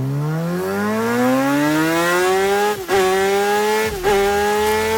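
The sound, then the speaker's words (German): A MotoGP racing motorcycle's engine screams through a lap of the Spielberg circuit at about 250 km/h. It is loud and continuous, its pitch climbing steadily, broken by two brief dips like upshifts before rising again. “250 km/h? Genau. Also du kannst mit einem MotoGP-Testfahrer eine Runde über den Spielbergring fahren”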